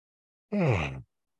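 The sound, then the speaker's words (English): A single voiced yawn, about half a second long, with a falling pitch and no talk. “One more yawn.”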